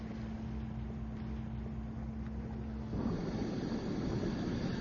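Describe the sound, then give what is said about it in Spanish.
Motor of an inflatable boat carrying a group of divers across rough sea toward a rock: a steady droning hum, then a louder rushing noise of wind and water. “bajan una lancha inflable para transportar al diverso grupo de buzos hacia la roca.”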